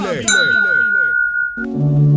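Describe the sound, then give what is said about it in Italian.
A single bright glass ding rings out for a toast, holding a clear sustained tone for over a second over a voice before music starts. “Dai su, brindiamo.”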